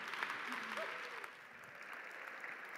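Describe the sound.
Audience applause welcoming a guest onto a stage: dense, steady clapping that stays fairly faint and even throughout, with a brief voice faintly heard early on.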